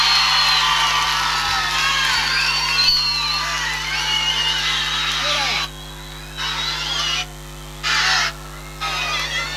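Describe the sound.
A crowd cheers, whoops and whistles for a band at a live concert in Salta. Shouts and sharp whistles form a busy wash over a low hum, and the sound cuts out abruptly a few times in the second half.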